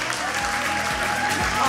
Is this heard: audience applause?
yes